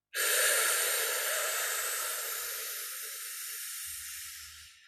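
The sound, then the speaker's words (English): A slow breath drawn in through the mouth during a guided breathing exercise: a loud, steady, airy hiss lasting about four and a half seconds, tapering slightly at the end. “5 seconds in through the mouth.”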